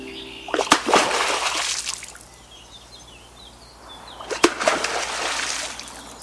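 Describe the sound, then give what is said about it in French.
A beaver slaps its tail on water as an alarm signal to an intruder. Two loud slapping splashes are each followed by churning water, with faint bird chirps between them. “Ce que vous venez d'entendre, c'est le signal d'alerte du castor qu'il fait en claquant sa queue sur l'eau dès qu'un intrus se présente sur le territoire.”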